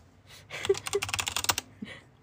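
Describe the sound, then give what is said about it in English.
Typing on a computer keyboard: a quick run of many crisp clicking keystrokes for about a second, with a faint tap just before and another soft click after. “No, I'm going to type them out.”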